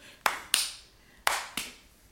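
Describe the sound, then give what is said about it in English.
Four sharp hand claps in two quick pairs imitate a crab clapping its big pincers. The claps are crisp and fairly loud, each with a short ringing decay, heard alone. “And then the crab turned and looked at them, and with two of his big pinchers, he clapped twice. Clap, clap.”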